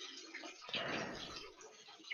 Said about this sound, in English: Maybe mute your mic next time. He's doing the dishes. Yeah, he's just washing off a plate.